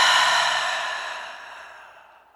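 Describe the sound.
A slow, breathy exhale through the nose during a guided breathing exercise: soft airy hiss that starts at its fullest and fades steadily over about two seconds, with no voices.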